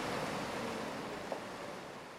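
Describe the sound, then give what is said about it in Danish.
Calm sea water in a rocky coastal bay: a faint, even wash of gentle surf that barely swells or breaks, a soft continuous hush with no voices. “det er nu altså også dejligt, når vandet det er stille og roligt. Lyt en gang.”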